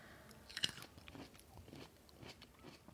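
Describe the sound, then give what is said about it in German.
A seedless green grape is bitten with one crisp snap, followed by quiet, soft, wet chewing. “Also sieht aus wie eine ganz normale Weintraube, ja. Grüne übrigens, sind die kernlos? Ja, sind kernlos. Super, ich esse ja nur kernlose. Mhm. Die riechen auch normal und jetzt geht's los.”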